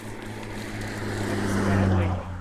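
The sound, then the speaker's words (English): A big Jeep towing a trailer drives past, its low engine hum and road roar swelling toward a peak near the end before easing slightly. “Hey, there's a guy with a big Jeep and a trailer that just went by.”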